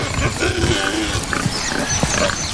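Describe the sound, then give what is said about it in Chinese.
Wild boar grazing close by: continuous low grunts and snuffling snorts, fairly loud and steady across the whole stretch with no talking. “他不能表现得太迫切，野猪在附近吃草，”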